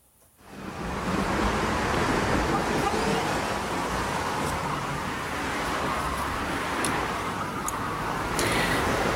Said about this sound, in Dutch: Je zei een 80 kilometer weg tussen Deventer en Zutphen. Ja. En dan het voorbijrazende verkeer.